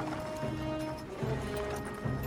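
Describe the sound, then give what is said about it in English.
Horses' hooves clop steadily as men on horseback ride onto overgrown grounds, a quiet rhythmic patter mixed into a dense, continuous background. “Horses. Now men on horseback ride onto the overgrown grounds of Talbot Hall.”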